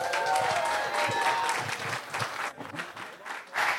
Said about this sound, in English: Give a warm welcome for Danielle.